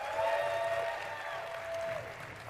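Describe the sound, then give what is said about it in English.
Faint applause from a conference audience as a presenter leaves the stage, a soft, even patter of clapping with a steady sustained tone running through the first two seconds. “can we get another round of applause as you exit the stage carefully?”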